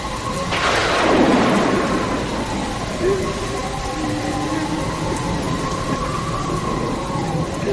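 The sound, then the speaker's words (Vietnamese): A late-night thunderstorm with wind and heavy rain: one loud rolling thunderclap near the start, over a steady downpour that continues throughout. “trời bỗng sấm chớp nổi lên liên hồi rạ rỡ, và tiếp sau là một trận mưa gió bão bùng”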